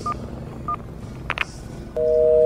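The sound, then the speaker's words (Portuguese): A mobile phone dials a call, giving two short keypad beeps and then a steadier, longer dual tone. The tones sit over constant background noise. “Deixa só eu ligar pro seu Gilmar antes.”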